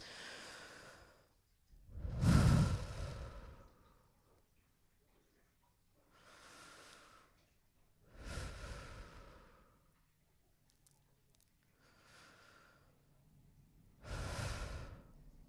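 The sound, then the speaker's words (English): Deep, slow breaths during a guided breathing exercise: several long airy inhales and exhales, soft and hushed, separated by quiet pauses. “We'll do 3 more. Seriously, breathe with me.”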